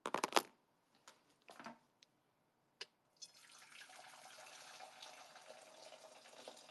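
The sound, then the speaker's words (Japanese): Freshly boiled hot water poured in, a few light clicks and knocks at first, then a steady, even rush of liquid that continues to the end. “お湯入れて、あんた、お水とかちゃんと測らず入れちゃったからね。”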